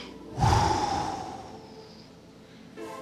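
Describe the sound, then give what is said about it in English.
A person takes one sharp, deep breath in, then blows out in a long, steadily fading exhale during a guided relaxation exercise. A second breath begins at the very end. “I want you to take a big deep breath and I want you to blow out.”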